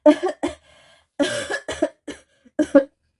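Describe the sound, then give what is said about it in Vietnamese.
Harsh, choking coughs from someone who inhaled smoke while blowing on a fire through a blow tube, coming in several irregular bursts separated by short gaps. “lại bất thình lình hít phải ngụm khói, sặc sụa ho liên hồi”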